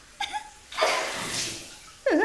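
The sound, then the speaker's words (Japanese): Sea water splashing as people throw it at each other in the sea: a broad, rushing spray lasting about a second, framed by short voiced cries or laughter just before and right after. “こんな風に海で水かけ合ったりするのも王道だけど楽しいよな。”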